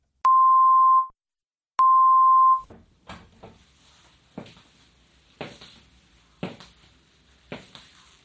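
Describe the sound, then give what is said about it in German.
Two short steady headphone test beeps, the first on the left and the second on the right, each under a second long. Faint crackling, rustling noises follow after them. “werden vor dem Hörspiel zwei kurze Signaltöne erklingen. Der erste Ton links, der zweite rechts.”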